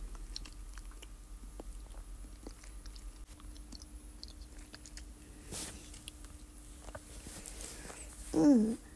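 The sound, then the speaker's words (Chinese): Biting and chewing of homemade food from a table full of dishes: soft, faint crunches and mouth sounds come and go intermittently, with no talk. “好好好，我尝一下啊”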